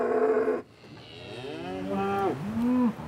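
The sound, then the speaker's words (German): A breeding bull lowing inside a livestock trailer: after a short loud burst, one long, deep moo swells over a couple of seconds, wavering and then dropping in pitch before it cuts off. “Jetzt ist der Viehhändler endlich da. Im Anhänger Deckbulle Ivo.”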